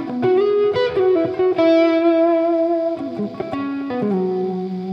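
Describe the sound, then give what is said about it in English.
Distorted electric guitar played through a heavier amp channel, with a few ringing, sustained notes and shifting pitches, loud and alone. “So I'm going to go to a heavier channel. And now you're going to notice I have a lot more distortion that I could work with.”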